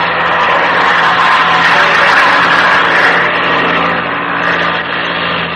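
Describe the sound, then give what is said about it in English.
Small plane engine as the throttle opens for a climb, a loud, steady buzzing roar with strong harmonic tones that swells slightly in the middle and then eases a little. “Okay, I'll open the throttle and stick your nose up.”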